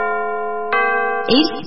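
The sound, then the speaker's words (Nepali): A radio time-signal chime marks six in the morning: a steady, ringing electronic tone, struck afresh partway through and ending in a rougher, brighter burst. “पहिलो समय सूचक अहिले बिहानको 6 बज्यो”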